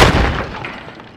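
A heavy explosive breaching charge on a door detonates in a single loud blast. A sharp, broad crack opens it and decays steadily over about a second.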